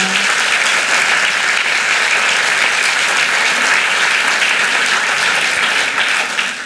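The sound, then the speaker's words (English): Audience applause greets an author joining the stage for an on-stage conversation: loud, dense, sustained clapping that stays even throughout and fades slightly at the very end. “Please put your hands together for Anna Funda.”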